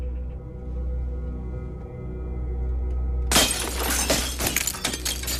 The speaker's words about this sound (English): Cut the tent, break a window.